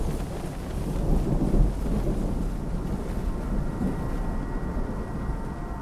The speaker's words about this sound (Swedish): och ett oväder har dragit sig in.